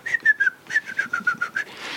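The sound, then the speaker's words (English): A person whistles an imitation of birds tweeting: a quick run of about ten bright, short chirps, fairly faint and alone. “about 3:30, if you've got the window open, the birds start tweeting. It's like Percy Edwards has been resurrected.”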